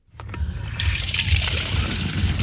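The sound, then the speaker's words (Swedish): Drinking water pours and splashes into a bottle during a water outage after a main-line leak, a continuous rushing, splattering stream that starts abruptly and stays steady and fairly loud throughout. “Fyller på vatten. Dricksvatten.”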